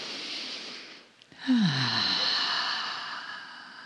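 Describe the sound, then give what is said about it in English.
A deep breath is drawn in through the nose with a soft, airy hiss. After a short pause it is let out through the mouth in a long exhale that begins with a low voiced sigh and slowly fades. “take in a nice deep breath through your nose. Let it out of your mouth.”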